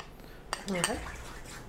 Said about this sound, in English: And I'm gonna have you mix this. Okay. So just take your fork.